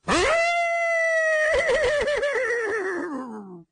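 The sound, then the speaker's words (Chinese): A long whinny from a thin yellow-dappled horse standing at a stable trough, heard alone: one sustained, ringing call that trembles and wavers in pitch partway through, then slides downward as it fades out. “此时个那匹黄骠马看到秦琼那么一瞅他，这匹马引颈长嘶，”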